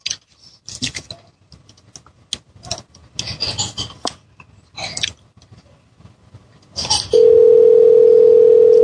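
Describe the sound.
Telephone dial tone while a call is being placed, preceded by scattered rubbing, clicking and handling noises from the phone, then a steady, loud, unbroken tone that runs to the end.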